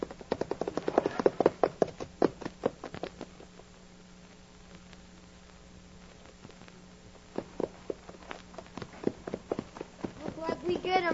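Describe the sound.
Horses gallop as a band of riders sets off in a western-style drama. Rapid, rhythmic hoofbeats drum loudly at first, ease to a faint patter in the middle, then surge back strongly toward the end.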